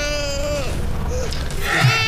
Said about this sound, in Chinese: 小宝贝最乖了，不哭了。